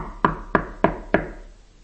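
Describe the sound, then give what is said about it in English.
Someone knocks on a front door four times. The raps are firm and evenly spaced, each a sharp hollow thud that fades quickly, followed by a short quiet stretch. “God, when He appears to you, He's going to come at the front door and He's going to knock.”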